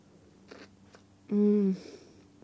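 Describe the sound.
Soft bites and chewing on a milk-chocolate-covered snack with orange jelly, a couple of faint crunchy clicks followed by a loud hummed sound of enjoyment.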